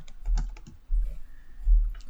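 Typing on a computer keyboard, a few quick bursts of soft clicking keystrokes, fairly faint, with no talk.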